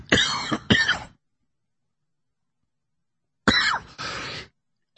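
A man clears his throat in two harsh, raspy bursts, each made of a pair of short rough pushes, with a long silence between them.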